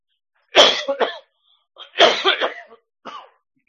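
Coughing and throat clearing from an irritated throat: three rough bursts, the first and second split into several quick hacks, the last short and fainter, heard alone without talk.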